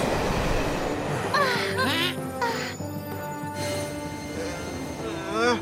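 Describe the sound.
A train speeding along the rails into a tunnel, a steady rolling rumble with bright warbling, squeaky tones rising and falling over it.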